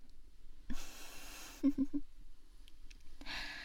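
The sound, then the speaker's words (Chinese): Rapid breathing and sniffing: several quick, faint breaths and sharp sniffs come in short bursts, with quiet pauses between them. “那你就多闻闻吧，拼命的加速呼吸，嗅着老师鞋里的味道。”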